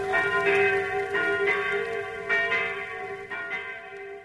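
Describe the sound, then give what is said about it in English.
Church bells ring in a Normandy village during a liberation celebration, with many repeated resonant strikes over a steady ringing hum at a moderate level. “to let you know that the people of Normandy are celebrating their liberation, that church bells are ringing, and the villagers are going to mass to give thanks for their freedom.”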